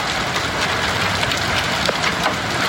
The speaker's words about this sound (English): that's the sound of hail hitting a car's roof